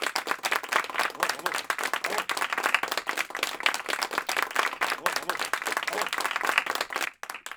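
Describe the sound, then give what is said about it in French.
Studio audience applause greeting two guests: dense, sustained clapping for about seven seconds, steady in loudness throughout, then cutting off abruptly near the end. “Merci de les accueillir sous un tonnerre d'applaudissements.”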